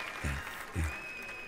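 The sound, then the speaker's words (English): Faint crowd applause at a live jazz festival concert, a soft, even wash of clapping with two brief low thumps partway through. “I'm worthy of all the applause.”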